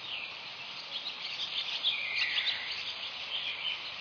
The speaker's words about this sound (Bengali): চারদিকে বৃষ্টির শব্দ, পশু পাখির আওয়াজ।